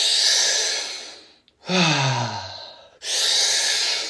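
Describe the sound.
Deep breathing in guided breathwork for sexual energy activation: a long, forceful inhale, then a voiced, sighing exhale whose pitch falls away, followed by another strong inhale, all loud and close.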